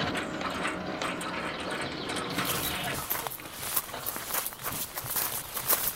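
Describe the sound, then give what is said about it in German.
The gate of a grand house swings open, giving off a quiet mechanical whirring with ratcheting, gear-like clicks that grow busier and more irregular partway through. “Ah, das Tor geht auf. Man hat uns bemerkt.”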